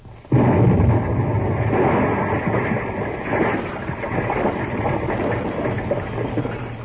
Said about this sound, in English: I'm going to blast. Blast? Stand back.